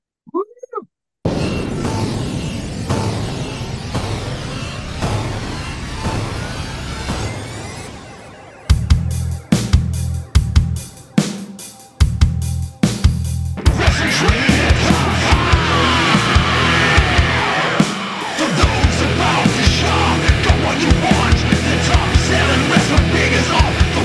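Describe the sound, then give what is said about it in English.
A wrestling-themed top-five segment jingle: loud, busy music that breaks into a run of sharp staccato hits partway through, then swells into a dense, sustained passage to the end. “It's a good jingle.”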